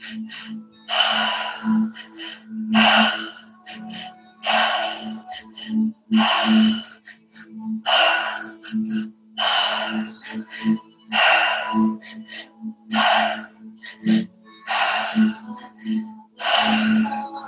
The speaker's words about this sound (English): Belly, chest, exhale. Belly, chest, exhale.